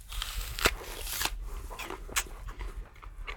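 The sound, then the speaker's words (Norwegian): Crisp crunching as someone bites into a sour apple picked in a garden, with a few sharp, brittle crunches spaced out over a few seconds and softer chewing noise between them. “Du smaker på et surt eple.”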